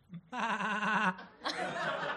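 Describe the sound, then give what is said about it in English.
A person imitates a goat's bleat with one drawn-out, wavering nasal cry, then laughter breaks out. “I'm going to try and be a goat.”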